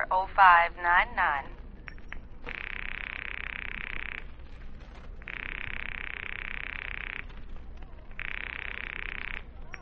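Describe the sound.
A telephone rings on the line with a steady buzzing tone in three long bursts separated by short gaps, after a brief voice at the start.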